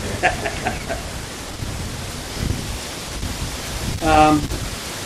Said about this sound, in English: It's challenging in this wind.